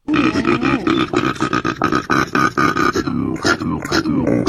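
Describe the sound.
A person imitates a koala's grunting call with a long, loud run of deep, rough, pig-like snorts and grunts. The grunts barely pause for about four seconds, then break into a few choppier bursts at the end.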